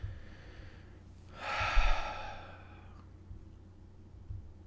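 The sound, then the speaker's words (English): A single deep breath, a breathy rush of air lasting a little over a second at moderate loudness, heard alone against a quiet low hum. “Nice deep breath.”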